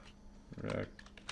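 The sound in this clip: Faint typing on a computer keyboard: a few soft, irregular key clacks over a low, quiet background murmur.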